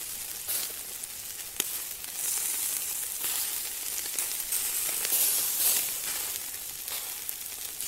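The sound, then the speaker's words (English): Food sizzling on a barbecue during hot weather, a bright, steady hiss with scattered crackles and small pops that stays fairly loud and alone throughout. “as you could tell, I'm loving the sound effects at the moment. But yes, the barbecues have been sizzling this week.”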